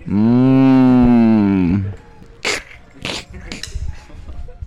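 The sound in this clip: A cow moos at a festival in Piedecuesta: one loud, long, tonal moo lasting about two seconds, followed by a few short, softer bursts of other noise.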